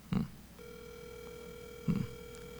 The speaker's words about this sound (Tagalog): Tawagan natin itong marketing department nila. Baka sumagot.